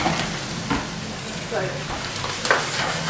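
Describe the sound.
A kitchen Bunsen burner browns food all around its outside, giving a steady hissing sizzle broken by a few soft crackles and bumps.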